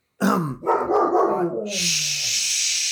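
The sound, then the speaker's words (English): A dog barks in a house during a recording, a couple of loud, rough barks followed by a steady hissing noise. “I'm sorry. We're recording in my house today. Yes, we are. I have a dog who is a brat.”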